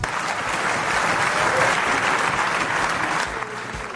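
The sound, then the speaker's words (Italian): Applause fills a parliament chamber, many hands clapping in a dense, even patter that holds for several seconds and eases slightly at the end. “That's the last time you are applauding here. È l'ultima volta che può applaudire in quest'aula.”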